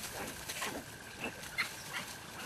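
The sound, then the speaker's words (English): A bush piglet hidden in thick grass gives faint, thin, high squeaks, a few short calls spread over a soft, steady background hiss. “Something squeaks in thick grasses. A bush piglet has been hidden in the grass while its mother is away foraging.”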